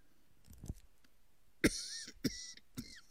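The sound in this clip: Short coughs from a throat tickle: a soft throat sound comes first, then three sharp, separate coughs in quick succession, faint overall.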